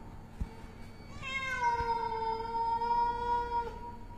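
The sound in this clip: A large black cat wails mournfully outside, one long, drawn-out, tonal meow that rises in and sustains for over two seconds before fading, fairly faint, after a short quiet stretch.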